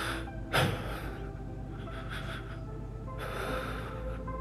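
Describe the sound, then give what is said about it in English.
A deep, shaky breath is drawn as a single short, sharp inhale near the start, over a steady low hum that continues throughout, with no talk. “He took a deep, shaky breath.”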